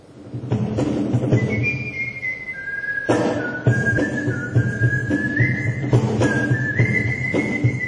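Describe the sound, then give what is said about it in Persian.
Whistling by performers at a whistlers' gathering in Japan: a sustained whistled melody that steps and glides between held notes over a steady low accompaniment, with no talk. “اولین گرد همایی نوازندگان سوت در ژاپن”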